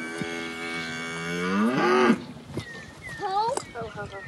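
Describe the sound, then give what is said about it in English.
A calf moos on a cattle ranch during calving season, one long drawn-out bawl that swells in loudness and bends upward near its end before cutting off, followed by quieter, shorter sounds. “It's calving season on the Phipps family ranch. One calf is struggling”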